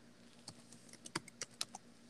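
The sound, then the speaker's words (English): Keys tapped on a computer keyboard while someone enters a password: several sharp, irregular clicks spaced unevenly and fairly faint, with no voices. “you have to type in a password to look at photos of Ben Affleck versus Casey?”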